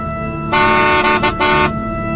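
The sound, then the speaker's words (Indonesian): A car horn honks on a street with one loud, steady blast lasting just over a second. It breaks briefly near its end, then sounds again, over a faint background hum. “aku terkejut ketika sebuah mobil mengklakson dan menegur kami.”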